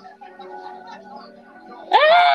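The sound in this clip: A woman screams at the top of her lungs, a sudden loud, high sustained cry that bursts in near the end after a quiet stretch of soft tonal background sound.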